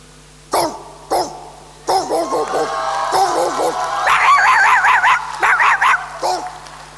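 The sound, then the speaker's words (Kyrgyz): Dogs bark many times, sharp loud barks at first spaced apart, then coming faster, with higher yipping barks in quick runs toward the end. “курудок иттер ажылдай баштады”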